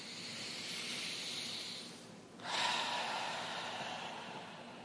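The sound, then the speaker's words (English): Breathing in through the nose during a guided meditation and visualization exercise: a long, soft, airy hiss, a brief quiet gap, then a second steady breathy hiss that runs to the end, faint and alone. “Breathe in through your nose.”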